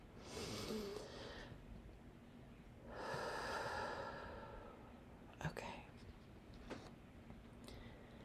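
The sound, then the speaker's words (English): A person taking a deep breath: two long, soft, airy breath sounds separated by a pause, quiet and breathy, followed by a few faint clicks. “I just want to take a minute to take a breath. Let's all just do that,”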